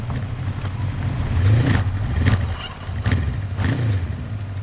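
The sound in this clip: Motorcycle engine riding down a dirt path past cornfields toward a barn, a steady low drone broken by rhythmic clattering bursts, fairly loud throughout.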